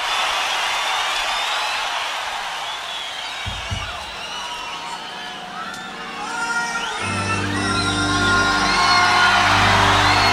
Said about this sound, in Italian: Gli applausi sono per la mia efficienza.